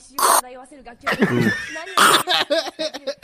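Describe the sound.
A voice imitates exhaling from a big vape pen with a couple of breathy, coughing bursts, mixed in with talking and laughter.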